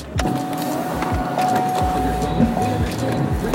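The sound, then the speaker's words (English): Someone settling into a car: a steady motor whine like a power window runs for about two seconds, with repeated low thumps and knocks throughout. “Sorry about that noise and shit. Just got in the car.”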